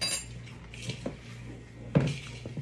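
Spoon and cutlery clinking during cooking: a few light metallic clinks spread apart, with one sharper, louder knock near the end, over faint background noise.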